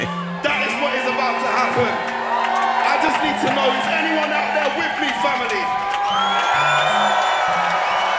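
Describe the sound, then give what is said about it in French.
A live audience at a jazz festival in Marseille cheers, whoops and applauds in a loud, continuous roar, with a voice speaking over the crowd. “On entend le public. Incroyable.”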